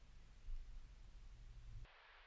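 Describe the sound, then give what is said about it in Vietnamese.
Faint, crackly radio static from a car radio: a steady low hiss with a soft hum underneath that cuts abruptly to a thinner, quieter hiss near the end. “Trên xe lúc này có tiếng MC trên cái đài radio phát ra rè rè.”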